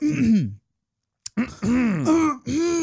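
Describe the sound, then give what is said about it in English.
Throat clearing in a few voiced, gravelly bursts split by a short silence. The pitch slides within each burst, and the sound is fairly loud and alone. “Clearing that throat.”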